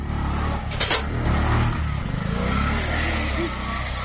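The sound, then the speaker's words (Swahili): A car engine labours and revs while the vehicle is stuck in mud on a badly rutted road. A loud, steady low rumble with grinding texture holds for about four seconds. “Gari letu kidogo limekwama kwenye tope hapo, na sasa nikorejea ndani ya gari kwa sababu barabara ni mbovu sana hizi.”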